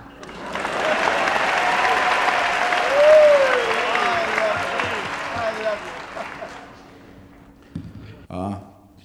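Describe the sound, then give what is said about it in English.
Loud audience applause at a talent-spotting show welcoming a performer, a dense sustained wave of clapping that swells, then gradually fades and thins out into a few scattered claps. “please put your hands together for a very big warm welcome, please, to Raymond Scum.”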